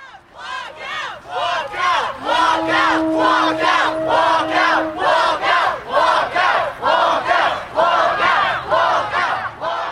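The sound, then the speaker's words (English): Hundreds of CSU Fresno students chant loudly as they march through campus during a walkout rally, their voices rising and falling in a steady rhythmic chant of repeated syllables that continues throughout. “That was the sound of hundreds of CSU Fresno students as they marched through the campus today, encouraging their fellow students to join them.”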